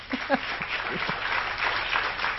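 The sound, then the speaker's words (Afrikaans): Audience applause at a university awards ceremony, a dense, steady patter of many hands clapping at moderate level, with a brief voice near the start. “Kom ons gee 'n applous vir dit.”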